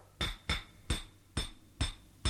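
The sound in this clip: Six sharp, ringing strikes as gold miners, mostly Nubians under Egyptian overseers, hit rock with simple tools to cut small cracks, spaced in a steady, slightly uneven rhythm.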